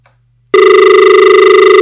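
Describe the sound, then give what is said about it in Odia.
An incoming call sets off a ringing telephone: after a moment of silence, a loud, steady electronic ring tone starts abruptly and warbles in quick, regular pulses to the end. “ତେବେ phone ଆସିଲାଣି, ଆମେ phone ନେବା।”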